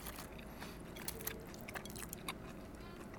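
Faint biting and chewing of conger eel tempura: soft crunches and small crackling bites repeat unevenly over a quiet, noisy background.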